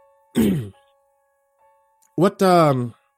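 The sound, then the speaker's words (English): Someone clears their throat twice in short, rough, voiced bursts, with a pause of more than a second between them. “I cleared my throat.”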